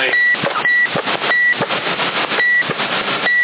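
A telephone rings over CB radio static: five short, steady high-pitched beeps at uneven intervals cut through a loud, dense, band-limited hiss.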